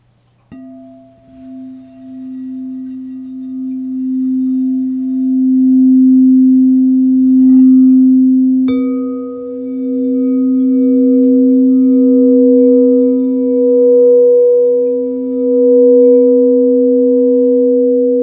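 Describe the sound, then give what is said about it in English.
Pure sine tones forming a seventh interval: a steady low tone sounds alone at first, and about halfway through a higher tone joins and holds with it. The tones are loud, clean and sustained, with nothing else heard. “Let's tune into these intervals and learn more today. This tonal interval is called a seventh.”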